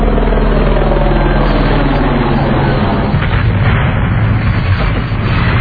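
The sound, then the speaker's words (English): A helicopter roars loudly and steadily throughout, its engine drone overlaid with a rhythmic low chopping from the rotor. “And I got a chopper on out of here right now”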